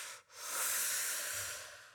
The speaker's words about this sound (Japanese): 深呼吸、深呼吸。